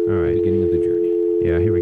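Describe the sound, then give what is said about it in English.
Telephone dial tone sounds as a steady, unbroken mid-pitched tone that runs throughout, with people talking over it. “First of all, let's get a dial tone.”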